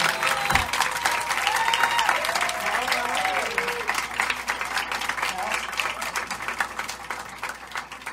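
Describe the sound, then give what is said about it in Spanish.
An audience applauds with dense, steady clapping that holds for the whole stretch and fades slightly near the end. A voice is heard over the applause early on. “Aplauso para Mari.”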